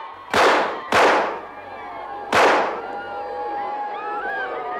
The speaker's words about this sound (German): Mahatma Gandhi wird von drei Schüssen getroffen und sinkt blutend zu Boden.